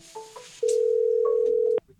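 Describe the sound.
A telephone call comes in to a studio: a couple of faint short beeps, then one loud, steady mid-pitched tone holding for just over a second before cutting off.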